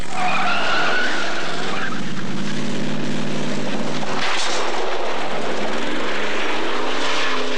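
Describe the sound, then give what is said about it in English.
Tires squealing as an orange 1970 Camaro does a donut and kicks up dust, a loud, sustained screech mixed with steady engine roar that runs unbroken throughout. “Squealing his tires, racing into the movie, kicking up dust, and doing a donut in the orange 1970 Camaro”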